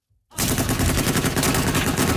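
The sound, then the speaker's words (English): Heavy machine guns mounted on pickup trucks fire on unseen targets. After a brief silence, a sustained, loud burst of rapid, dense gunfire rattles on without pause. “Video released by Saudi-backed forces shows fighters in pickup trucks mounted with heavy machine guns firing on unknown targets.”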